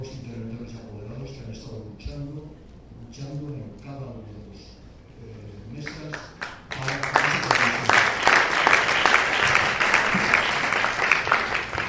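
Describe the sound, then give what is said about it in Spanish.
Applause at a political assembly in Zaragoza: a voice speaks at first, then clapping breaks out abruptly and continues loud and steady to the end. “Creo que hay que dar el aplauso de la razón más fuerte a”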